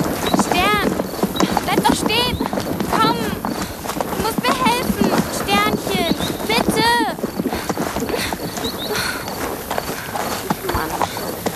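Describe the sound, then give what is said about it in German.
Hoofbeats of a horse running away from a pasture at night, a fast, steady clip-clop that carries through the whole stretch beneath a person talking. “Doch statt zu ihr zu kommen oder wenigstens stehen zu bleiben, nimmt Stern Reißaus.”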